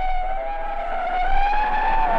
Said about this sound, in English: rushed out of the German compound and boarded a fire truck, a gigantic hook and ladder.